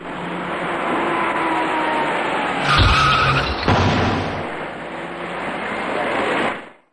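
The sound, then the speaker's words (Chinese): Steady road traffic noise with a sudden louder scraping burst as an electric bicycle runs into the rear of a small red car, a sharp knock following before the traffic hum carries on and cuts off. “一辆电动自行车竟然从后面骑了上来，而且他在没有采取任何措施的情况下撞到了红色小客的尾部”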